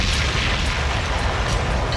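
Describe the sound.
A bomb explosion sound effect played by a DJ rolls out as a loud, sustained low rumble, a dense booming roar that holds steady across the whole clip with no talk over it.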